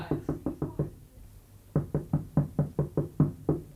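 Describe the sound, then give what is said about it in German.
Carpets are being beaten with sharp, hollow thumps in quick rhythmic runs: a burst of five blows, a short pause, then a longer run of about ten evenly spaced strikes, alone without talk. “Wahrscheinlich werden Teppiche geklopft.”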